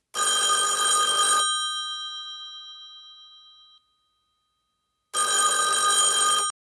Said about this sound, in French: Un homme compose un numéro de téléphone. Quelque part ailleurs, une femme décroche.